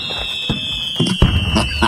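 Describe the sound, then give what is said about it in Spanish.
Fireworks sound effect for a Mexican village fiesta: a steady high whistle runs throughout, broken by a few short crackling bursts and bangs. “Una, ¿cómo se llama? Fuegos artificiales y todo el rollo”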